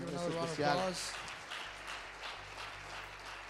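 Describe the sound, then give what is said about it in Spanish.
Sustained audience applause at a worship gathering, a dense, steady patter of clapping that follows a brief voice at the start and carries on to the end. “Le vamos a dar otro aplauso.”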